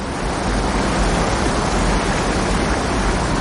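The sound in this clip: Roaring water from a huge jungle waterfall, a dense, unbroken rush of falling water that stays loud and even from start to finish.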